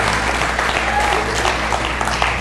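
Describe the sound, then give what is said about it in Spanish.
A church audience applauds during a Spanish-language service: dense, steady clapping from many hands that stays even and continuous throughout. “Dale un aplauso al Señor y a todos los que están tomando hoy la decisión.”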